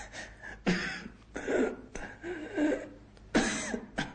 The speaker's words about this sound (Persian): به شدت سرفه می‌کرد